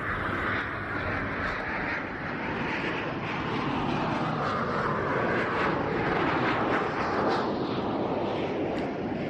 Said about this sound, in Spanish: ¿Preparado? 3, 2, 1, despegamos.